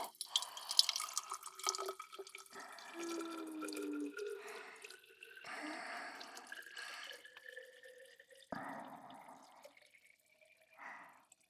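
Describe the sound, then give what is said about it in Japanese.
Carbonated water poured into a glass holding ice: a run of splashing, trickling and dripping liquid with light fizz, fairly soft and uneven, with no voices. “ただ炭酸水を注ぐだけでも音気持ちよくてリラックスした気分になっちゃいますよ”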